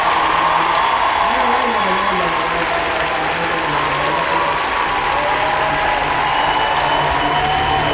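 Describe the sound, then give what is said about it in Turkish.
Sustained applause, a dense and even wash of clapping that stays loud and steady from start to finish without pauses. “Kocaman alkışlar sabahleyin üşenmeden kıymetli vaktini bize ayıran dinleyicim için olsun.”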